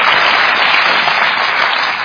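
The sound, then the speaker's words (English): Audience applause at a town hall event: a loud, dense, even roar of clapping that stays steady throughout without any talk on top. “Applauding this, folks. Unbelievable. This is on CNN.”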